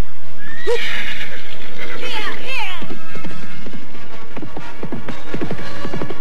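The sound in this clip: A ridden horse gives a loud, shrill neigh, then its hooves break into a quick, rhythmic clip-clop that carries on steadily to the end.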